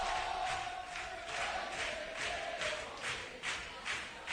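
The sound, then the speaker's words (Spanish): Football crowd at the Estadio Municipal de La Línea during a match, a loud roaring mass of fans that swells in regular rhythmic surges. “Así suena el municipal de la línea.”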